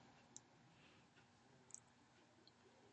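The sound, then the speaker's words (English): Faint computer mouse clicks while someone scrolls down a website, a few small, sharp ticks spread irregularly over a quiet, hissy background. “And as I scroll down and I look at her website”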